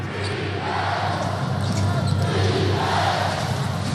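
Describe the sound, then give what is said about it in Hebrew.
A basketball is dribbled on court during a game, giving repeated low thuds beneath a loud, continuous crowd roar. “He took a patient dribble to engage the defense.”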